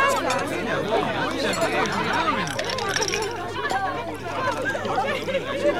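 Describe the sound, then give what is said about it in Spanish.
People chat over an ordinary dinner. Many overlapping voices form a lively, steady babble at moderate loudness. “Seguramente estos te parecieron sonidos de una cena cualquiera, pero si todos te sonaron familiares, hay algo que dejamos de escuchar.”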